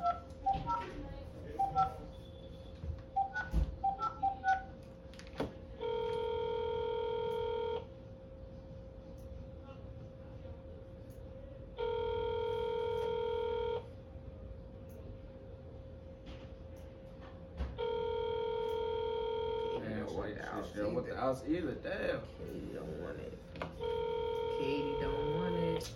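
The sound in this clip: A telephone call rings out unanswered, with four long, evenly spaced ringback tones. People talk before the first tone and in the gaps between.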